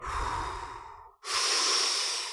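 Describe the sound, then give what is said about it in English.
A person breathing audibly: two long, airy breath sounds split by a brief silent gap, each a broad steady hiss at moderate loudness, with no talk. “Did you realize that that breath right there came from God Almighty?”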